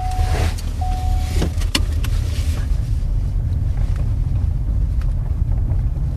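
A car drives around a landfill perimeter fence: steady low engine and road rumble with wind buffeting throughout, a brief faint tone early on, and no speech.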